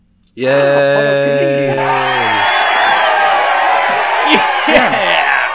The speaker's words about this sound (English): You should change that cheer to be the Roller Coaster Tycoon cheer noise.